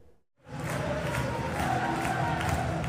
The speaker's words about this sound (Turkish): İsterseniz bir Şampiyonlar Ligi, Şampiyonlar Ligi'nde Celtic taraftarı ve Celtic taraftarının vermiş olduğu mesaj tribünden bir izleyelim.